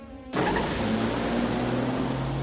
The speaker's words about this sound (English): An underground garage. A grey saloon drives up the ramp into the street.